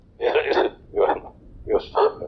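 A few harsh coughs and throat-clearing bursts come in short, separated spurts, loud and rough, with no talk between them.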